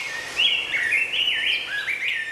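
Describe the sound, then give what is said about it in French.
Birds chirping and singing at waking time, a steady stream of high, bright whistles and warbling trills that rise and fall, fairly loud and unbroken throughout, with no voices. “Oui, je voulais vous donner des oiseaux au réveil. Ah, c'est si bon, se réveiller avec des gazouillis, non?”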